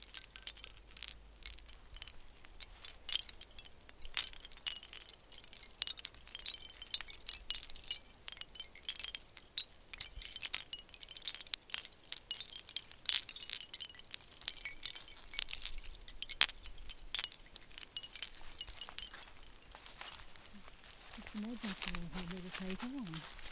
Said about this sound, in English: These are shells that she's strung together with beads and just hung them off a tree here.